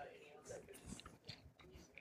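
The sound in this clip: Someone chews a large single bite of food, making quiet, wet, squishy mouth sounds and smacks while a voice speaks over the chewing.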